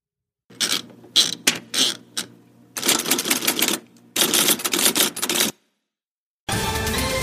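Typewriter clatter in a newsroom: several bursts of rapid, sharp keystrokes separated by short pauses, loud and close, then a final stretch of dense mechanical clacking after a brief silence.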